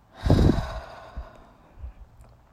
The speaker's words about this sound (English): Inhale through the nose, big inhale. And release through your mouth.